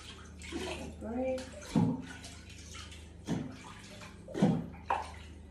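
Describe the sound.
Water splashes and sloshes in a bathtub as a young boy is washed, with a few louder splashes and soft voices of the child and an adult talking.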